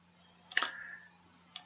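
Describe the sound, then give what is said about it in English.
Two crisp computer mouse clicks sound while a web page is scrolled down, the first louder with a short tail and the second fainter about a second later, over a low steady hum. “I'm going to scroll down a little bit”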